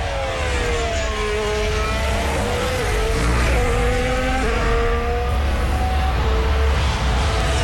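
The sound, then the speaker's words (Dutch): A Formula 1 Ferrari race car driving out of the pit lane: a loud, continuous engine roar with high whining tones that shift in pitch throughout. “Ferrari was binnen met twee coureurs. Maar goed, Leclerc rijdt nu naar buiten.”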